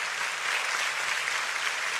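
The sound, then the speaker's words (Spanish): A church audience applauds loudly, with dense, steady clapping from many hands that holds at an even level throughout, with no voices standing out. “Si este aplauso es para el Rey de Reyes, tiene que sonar con fuerza, por favor.”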